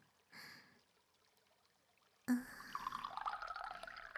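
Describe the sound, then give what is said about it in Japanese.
Hot water poured into a vessel, a faint brief splash followed by a steady pouring stream that starts abruptly and trickles on softly to the end. “こちらにもお湯を注いで、”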